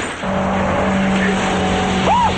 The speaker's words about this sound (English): Bullets pelt the back of the package delivery truck as they drive away.